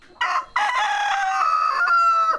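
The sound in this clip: A rooster crows on a farm in the Colombian savanna where chickens and goats roam: one loud, drawn-out crow with a brief opening syllable, held strong before breaking off, with no voices.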